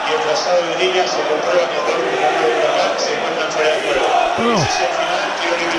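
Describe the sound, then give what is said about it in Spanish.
The Racing football crowd in the stadium rises and cheers, a dense, steady roar that holds throughout under a commentator's voice. “Escucha, se levantó el público de Racing.”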